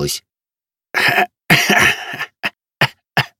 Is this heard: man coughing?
yes